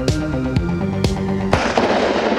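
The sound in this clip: Four sharp gunshots crack loudly at evenly spaced intervals of about half a second. A steady, droning tonal background runs underneath, and a noisy wash lingers after the last shot.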